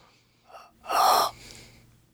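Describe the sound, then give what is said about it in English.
A person breathes sharply into a microphone while trying to make a sound for a game, producing one loud breathy, gasp-like rush, with softer puffs of breath before and after it. “You just breathe into the microphone?”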